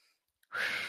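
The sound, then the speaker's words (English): A single deep breath drawn in during meditation, a loud, airy rush of inhalation that starts after a moment of near silence and holds steady to the end. “And we just breathe that in right now”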